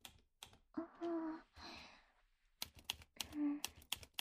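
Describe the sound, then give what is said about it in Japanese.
A typewriter typing on its own, with quick irregular mechanical clacks and key strikes in uneven bursts, quite faint overall. “なんかあれ動いてる？何？タイプライター”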